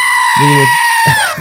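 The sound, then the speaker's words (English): A goat bleats in a couple of short, wavering cries, the first a clear harmonic bleat and the second rougher and shorter, heard over a steady tonal backdrop. “the goat plays for Andy”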